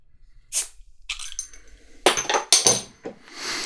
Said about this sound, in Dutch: Ik begin allereerst met de Simply Cola, die open ik alvast.